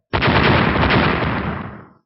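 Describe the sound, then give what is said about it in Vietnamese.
A rapid barrage of explosions, over a hundred blasts in quick succession, merging into one loud, dense roar that holds steady, then fades away over about two seconds. “Hơn trăm tiếng nổ liên tiếp vang lên.”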